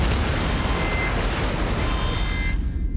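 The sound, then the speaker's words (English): Explosion effect of an asteroid striking a spaceship and severing its umbilical: a loud, sustained roaring rumble with crackling hiss, the bright top end dropping away near the end. “An asteroid has struck the umbilical and severed it.”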